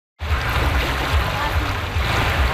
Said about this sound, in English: That's the sound of paddlers embarking on the last Paddle the Don event back in 2019